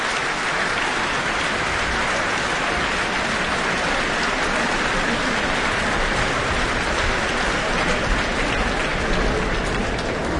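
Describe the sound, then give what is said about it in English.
Applause from a large concert audience in the Auckland Town Hall after a symphony concert ending with Tchaikovsky's Sixth Symphony. The clapping forms a dense, hissing roar that stays loud and steady throughout. “Great to hear such an enthusiastic response this evening from our audience here in the Auckland Town Hall.”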